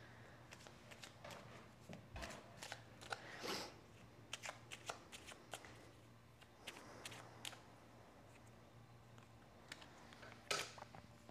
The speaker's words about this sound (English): I'm gonna pull one more card.